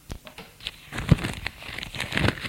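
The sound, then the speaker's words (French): A sheet of paper laid down on other sheets, giving a soft, continuous crinkling rustle with small crackles, fairly faint. “Il sort la feuille et la baisse sur les autres feuilles.”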